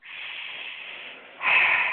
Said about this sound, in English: you're going to take some very deep breaths.